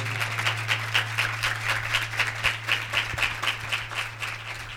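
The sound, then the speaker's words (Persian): An audience claps for a birthday, a steady run of many fairly faint, even handclaps over a low continuous hum. “دست رو گفت برای خودش بزن، برای تولد خودش.”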